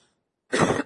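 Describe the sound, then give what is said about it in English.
A single sharp cough bursts out loud and alone after a short silence. It is a harsh, breathy burst that ends quickly. “Please forgive if I'm coughing a little bit.”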